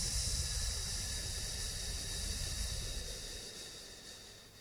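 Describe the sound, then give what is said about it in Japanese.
Breathing during an abdominal breathing exercise: a steady, airy hiss of breath that holds at an even level and fades slightly toward the end. “吸って、吐きます。”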